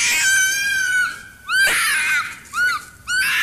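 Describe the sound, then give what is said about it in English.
Screaming heard around midnight from bed inside a family home: one long, high-pitched wail followed by a few shorter, wavering shrieks that bend downward in pitch, loud and piercing with short gaps between them. “and I started hearing like this screaming. I have the scream here.”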